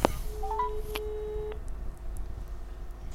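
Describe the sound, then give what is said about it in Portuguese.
Telephone tones as a call is placed: a few short clicks and brief beeps, then a steady low tone holding for about a second before cutting off, followed by quiet line hiss. “Bem, vamos então ligar ao CDS”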